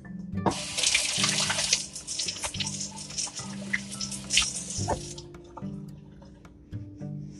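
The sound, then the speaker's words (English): A tap runs steadily for about five seconds as hands are rinsed partway through baking with egg whites. Then the flow stops, leaving a few faint drips. “I need to rinse off my hands.”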